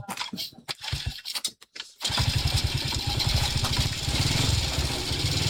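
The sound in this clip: A motorcycle engine starting: about two seconds of choppy, sputtering cranking, then the engine catches and settles into a loud, steady, rapid idle that continues to the end.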